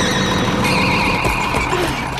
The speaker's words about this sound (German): So konnte sie die Mähmaschine rechtzeitig stoppen,